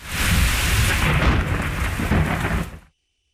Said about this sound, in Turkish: Gök gürültülü sağanak yağış başkentte geceyi de gündüze çevirdi.